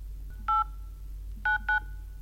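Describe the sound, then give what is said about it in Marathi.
Telephone keypad dialing tones as a call to the police is placed: three short, clear, steady beeps, one on its own and then two in quick succession, over a low hum. “लाव पोलिसांना phone.”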